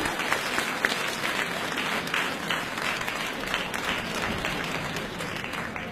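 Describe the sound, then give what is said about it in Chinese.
Audience applause welcoming the next act onstage at a live comedy show, a dense, steady wash of many hands clapping that holds at an even loudness for the full stretch, with no voices over it. “好，下面呢再请出我们的四号选手为大家表演他们的家言小段，大家欢迎。 好的，热烈掌声有请一下。”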